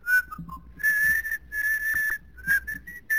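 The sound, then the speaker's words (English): A person whistles a tune in several short, high, clear phrases separated by brief pauses, with no talking. “and I'll whistle along.”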